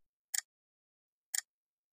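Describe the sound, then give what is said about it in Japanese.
Two crisp, faint ticks of a clock, evenly spaced one second apart, each a short high click separated by silence. “時計の針が規則的に時を刻みます。”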